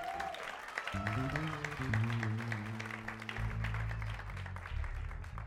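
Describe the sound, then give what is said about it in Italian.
Audience applause fills a church gathering, a dense and steady clatter of clapping that runs the whole clip, with sustained tonal notes sounding underneath once it gets going. “Facciamoli un applauso.”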